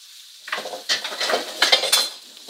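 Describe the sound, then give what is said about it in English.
Metal scraping and clinking of a utensil against a hot pan as a fish is lifted out, cooked over high heat in garlic-infused brown butter with caramelizing lemons; a few sharp bursts of scraping and clatter, no talking. “And now, to take that fish, you can see it, it didn't even have a, an idea of sticking to the pan.”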